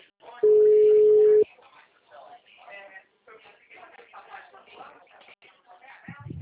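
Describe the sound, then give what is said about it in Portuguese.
After a dropped phone call, a single loud, steady telephone tone sounds for about a second, then people talk on the line. “a ligação caiu? Foi, eu acho que sim.”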